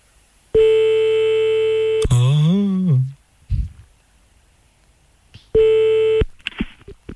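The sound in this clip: Telephone tones as a call is dialed for a French-language prank call: a long steady electronic tone, then a short warbling sweep and a few soft clicks, and later a second steady tone of the same pitch.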